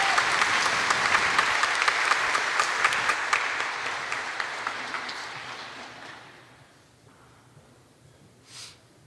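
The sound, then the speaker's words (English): Audience applause for the graduating class of 2021 at a parish service: loud, dense clapping that gradually fades away over about six seconds into near quiet. “Let's hear it for the class of 2021.”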